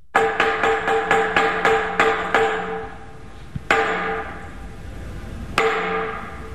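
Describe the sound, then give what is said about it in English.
A wooden semantron is struck to summon Greek Orthodox monks at a monastery in southern Sinai. A quick, even run of resonant, ringing knocks is followed by a pause, then two spaced, louder strikes that decay slowly. “Sound of a semitron used to summon Greek Orthodox monks, that being played at St. Catherine's Monastery in southern Sinai.”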